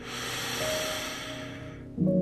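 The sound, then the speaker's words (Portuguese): Deep breathing during a guided devotional breathing exercise: a long, steady, airy hiss of breath lasting nearly two seconds, ending with a brief, slightly louder change. “Respire fundo. Solte. Mais uma vez. Respire.”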